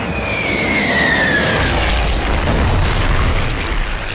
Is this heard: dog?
no